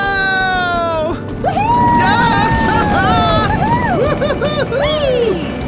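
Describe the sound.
An amusement park roller coaster plunges down its first big drop with a loud, continuous rushing roar like wind. Shrill, sliding screams rise and fall above it, with other voices underneath.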